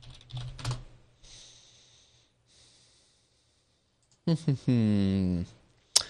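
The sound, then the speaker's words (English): Fast typing on a computer keyboard, a quick flurry of clicks at the start and fainter bursts after, followed by a brief voice near the end. “And yes, he does type that fast.”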